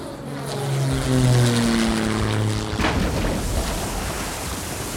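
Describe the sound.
Propeller airplane on an emergency landing, its droning engine tones sliding downward in pitch before a loud, broad roar takes over and holds to the end.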